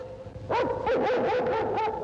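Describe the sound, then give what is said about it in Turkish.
A dog barks and yelps in several rough, wavering bursts after a brief quiet start, fairly loud and continuous. It is a tracking dog used in the search for a kidnapped child. “Bu köpek hep böyle avlar mı?”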